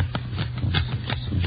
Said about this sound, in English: You deal out 15 cards, see?